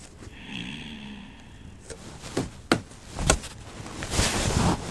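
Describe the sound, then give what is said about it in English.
A child knocks on a wall as if it were a door: a few dull, irregular knocks, the loudest near the middle, rising over a steady low background. “But you cannot knock on the wall like it's a door.”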